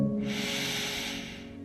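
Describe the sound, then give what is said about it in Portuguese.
A single deep breath, part of a guided breathing exercise in a prayer session: a long, soft, airy rush of breath held steady, then gradually tapering near the end, with no talking. “E mais uma vez eu quero te convidar a respirar junto comigo. Respire fundo.”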